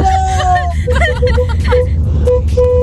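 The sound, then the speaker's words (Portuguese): Car horns honking in short blasts, several steady horn tones sounding over a busy hum of engines and overlapping voices. “Beleza, buzinou legal.”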